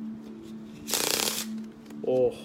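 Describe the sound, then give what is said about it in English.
Playing cards dropped and scattered, a short, loud papery flutter, followed by a brief voice. “And then I dropped the cards everywhere.”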